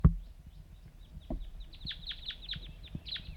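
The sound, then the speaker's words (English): Wild birds give many rapid, high-pitched chirps that repeat in quick bursts, faint and airy, after a single low thump at the very start. “Wild birds calling.”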